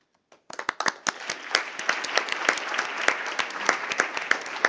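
Applause fills a meeting as Bureau members are elected by acclamation. The clapping starts after a brief quiet moment, quickly builds to a full, dense patter of many hands and stays steady to the end.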